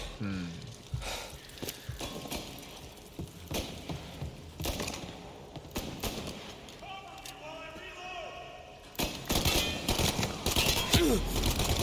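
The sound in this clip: Video game gunfire crackles in many sharp shots and bursts throughout, with footsteps and a man talking over the shooting.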